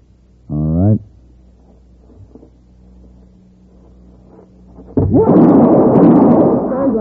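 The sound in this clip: A Derringer pistol fires in a radio drama, a single sudden, loud blast with a long rumbling tail. It comes after a quieter stretch that opens with a short tonal burst.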